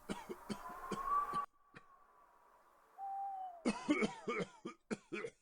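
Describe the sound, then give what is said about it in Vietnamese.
An old monk coughs in rough, dry bursts, a rapid cluster of coughs followed by a pause with a soft hooting tone, then another broken run of harsh coughs. “Một cơn gió lạnh khét thổi qua, khiến đại lão hòa thượng Quảng Tâm ho lên những tiếng khủ khủ.”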